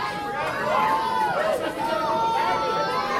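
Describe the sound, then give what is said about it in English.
A wrestling crowd reacts unhappily to a male wrestler, a steady wash of murmuring and jeering voices with a brief dip in the middle. “That's sweet. Crowd not real happy with him.”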